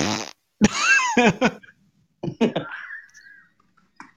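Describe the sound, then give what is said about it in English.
A voice imitates a queef with wet, sputtering, fart-like noises, delivered as a few separate bursts of varying length and a short final blip. “Is that a fart or a queef? A queef would be like.”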